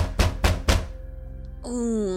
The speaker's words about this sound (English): As you're getting ready to leave to Icewind Dale, where you have been directed, this heavy knock comes at the door.